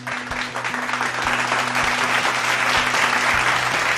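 Sustained audience applause at the close of a live show: a dense, steady wash of clapping that stays loud from start to finish.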